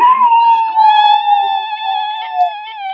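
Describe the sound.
A cat that has just been woken gives a long, drawn-out meow. The single cry is tonal and wavering, sustained for several seconds without a break.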